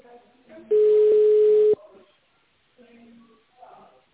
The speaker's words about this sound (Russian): Если вы знаете номер внутреннего абонента, то наберите его в тоновом режиме.